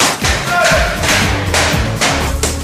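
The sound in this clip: Heavy pounding thumps land in an uneven rhythm, several dull, loud blows over a constant busy background.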